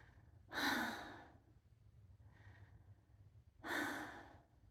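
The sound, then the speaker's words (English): Heavy breathing while catching breath after exertion: two loud, deep breaths a few seconds apart with a fainter one between, over a low steady hum. “I need to catch my fucking breath. Good lord.”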